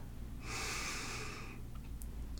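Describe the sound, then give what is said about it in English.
A single deep breath drawn in to fill the belly during a guided relaxation, a soft airy inhale lasting about a second, fairly quiet and heard alone without talk. “Take a deep inhale, fill your belly up.”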